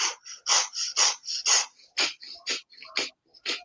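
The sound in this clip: Many short, forceful bursts of breath during a breathwork exercise, alternating between nose and mouth in a quick, steady rhythm, each puff a breathy hiss with brief gaps between.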